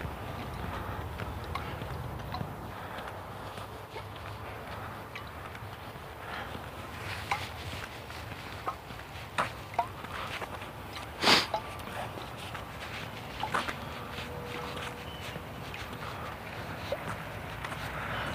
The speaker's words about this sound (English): I'm just walking along, admiring the greenery in this semi-wild space here.